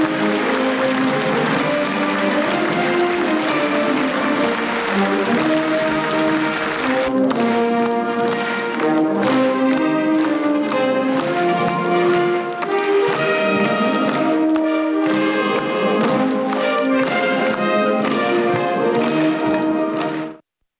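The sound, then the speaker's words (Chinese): Warm applause from a standing audience at a large 2018 celebration assembly in Beijing, a sustained wash of clapping with music playing alongside for about twenty seconds before ending abruptly. “当习近平等领导同志进入会场，全场起立，热烈鼓掌。”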